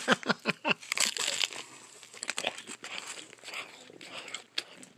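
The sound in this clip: Someone eats a sandwich with crisp, crinkling bites and crunchy chewing. A quick run of sharp bursts opens the sequence, followed by irregular rustly crunches at a modest volume.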